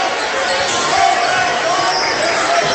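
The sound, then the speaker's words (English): Basketball dribbled down the court by a Coldwater Cavaliers player during a game against the Indians, the bouncing mixed into steady crowd noise while a commentator talks over it. “Last in game, dribbles the ball down for the Coldwater Cavaliers.”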